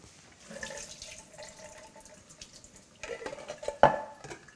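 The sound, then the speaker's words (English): Liquid drained from a can of corn into a kitchen sink, a soft, uneven trickle and splash that grows busier toward the end, with a sharp clank near the close. “Can of corn. That I want to drain. So I'll do this.”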